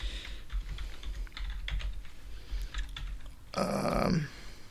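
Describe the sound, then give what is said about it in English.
Typing a card number on a computer keyboard: a quick, irregular run of faint key clicks and taps, followed near the end by a brief, louder burst of noise. “And I'll type in my card number, which you will not hear.”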